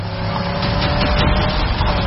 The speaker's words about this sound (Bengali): সুখারাম ঝড়ের বেগে গাড়ি চালাতে লাগল।